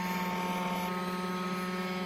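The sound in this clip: An unmanned helicopter drone hovers in place under automatic control, giving off a steady, even rotor drone with a tonal hum throughout and no voices.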